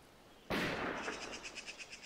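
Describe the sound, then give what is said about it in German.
Distant gunfire, quiet overall: one sharp, sudden burst followed by a rapid run of fainter, evenly spaced pops that fade off. “In Klingsel schießen sie wieder.”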